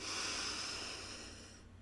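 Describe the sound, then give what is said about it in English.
A big breath drawn in through the nose with the lips sealed, part of a guided breathing exercise. One long, steady, soft airy hiss that fades away at the end, with no talking. “Again, big breath in.”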